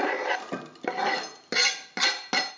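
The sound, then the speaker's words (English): A utensil scrapes melted chocolate, about 80 grams, from a bowl while making Zuppa Inglese custard. Several quick scraping strokes follow one another, each a bright rasping sweep that fades out, with no talking. “Okay, my chocolate is ready. Now scrape your chocolate”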